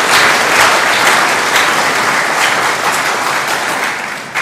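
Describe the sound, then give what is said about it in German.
Dense applause from a church audience honouring confirmation students, loud and steady throughout before thinning out at the very end. “Da könnten die Konfirmanden eigentlich mal eben eine kleine Runde klatschen und alle anderen auch.”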